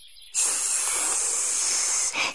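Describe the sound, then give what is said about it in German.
Snake hissing: one long, loud, breathy hiss that starts abruptly after a brief quiet moment and holds steady for about two seconds. “Da sah sie eine Schlange.”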